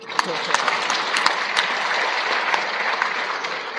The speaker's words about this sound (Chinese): 此处应该有掌声啊！